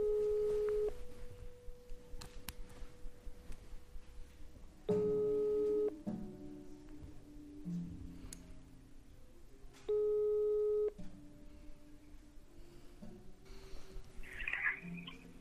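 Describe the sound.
A telephone call tone rings out three times, each a steady, even electronic tone about a second long, repeating every five seconds or so over faint background noise.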